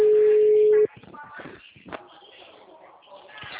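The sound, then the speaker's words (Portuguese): A telephone tone as a call drops: one steady, held pitch that cuts off abruptly, after which a voice talks over a narrow, phone-like line. “a ligação caiu”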